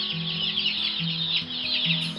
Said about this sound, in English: In her kitchen, she placed 3 large plastic boxes housing new hatchlings of chicks and ducklings. She will lean over the boxes and talk to them with soothing words and chirps. They chirp and peep in response and run to the side where she stands.